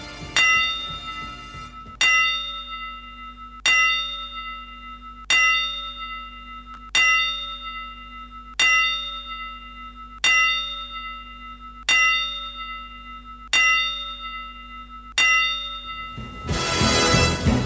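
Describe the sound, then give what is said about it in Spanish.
A church bell tolls ten times in mourning, each slow, evenly spaced stroke ringing out clearly and decaying before the next, followed by a brief burst of noise at the end. “10 campanadas para la pérdida de un grande”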